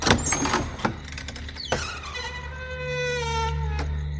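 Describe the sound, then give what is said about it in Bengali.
A huge, heavy, finely carved door is pushed open with a long creak that slides downward in pitch, over a low steady hum. “অনেক গলি ঘুজি পেরোনোর পর তিনতলায় এক সূক্ষ্মাতি সূক্ষ্ম কাজ করা প্রকাণ্ড ভারী দরজা ঠেলে ঢুকলেন কাউন্ট।”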